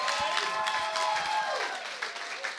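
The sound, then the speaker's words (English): Audience clapping fills a church in steady, dense applause that holds at an even level throughout, with no voices standing out. “Put your hands together for the testimony as we welcome Pastor Ben.”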